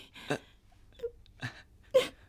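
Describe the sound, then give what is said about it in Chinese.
A woman weeps softly in a few quiet, separate sobbing bursts, with faint whimpering moans in the near-silence between them. “为什么你一听到我这样说你就哭啊？”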